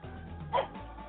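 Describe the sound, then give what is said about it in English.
A dog gives a single short, muffled bark that rises briefly above a steady low hum. “You stupid dog.”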